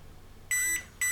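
A Huawei E5776 mobile router sounds an electronic beep signal: two high, pure tones, the first about a quarter-second long and the second starting just after and cut short. They are clear over a quiet background with no talking.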